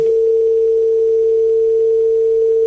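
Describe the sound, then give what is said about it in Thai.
Dial tone after a dropped phone call, a loud continuous single-pitched hum holding perfectly steady throughout, with no voices or other sounds. “สายหลุดไปไม่เป็นไรครับ”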